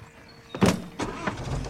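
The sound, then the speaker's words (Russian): A car as people get in and drive away: a brief loud burst, then a steady rumbling vehicle noise that continues to the end. “Они садятся в автомобиль и уезжают.”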